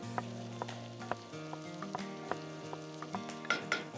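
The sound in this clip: Onions sizzle in a pan with a steady crackle and scattered sharp pops, over soft sustained tones that shift in pitch, with no talk.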